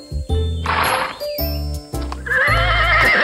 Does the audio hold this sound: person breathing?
no

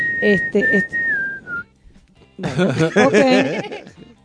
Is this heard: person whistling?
yes

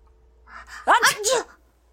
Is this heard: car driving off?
no

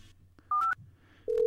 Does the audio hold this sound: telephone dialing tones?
yes

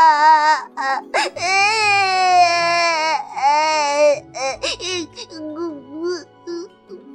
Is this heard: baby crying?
yes

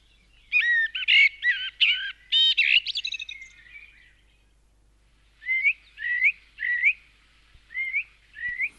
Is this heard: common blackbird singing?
yes

